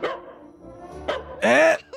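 Dog barking in a few short, harmonic yelps and barks. The loudest and longest is a high, whining bark near the end, followed by one brief yip.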